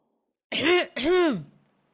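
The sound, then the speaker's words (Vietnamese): A man clears his throat at home while greeting a guest: two short, voiced harmonic "ahem" bursts in quick succession, moderately loud and alone, followed by silence. “Bố Diễm hắng giọng, mời Nam ngồi.”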